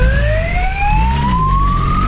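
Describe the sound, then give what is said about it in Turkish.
A police car siren wails during a chase after a motorcycle through city traffic in Istanbul: a loud, continuous electronic tone that sweeps steadily upward, over a low engine rumble. “Polis ekipleri peşine düştü, siren seslerine rağmen kaçışından vazgeçmedi.”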